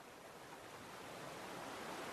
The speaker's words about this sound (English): The water from the falls creates a picturesque white foam.